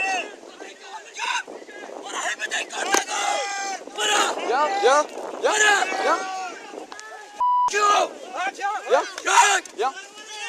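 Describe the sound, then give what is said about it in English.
Chaotic shouting from a crowd of men during a clash on a beach near Calais, where police officers are pelted with rocks and driftwood as a small boat launches; many overlapping yells and cries come in loud bursts. “That's the sound of officers being pelted with rocks and driftwood on a beach near Calais in June.”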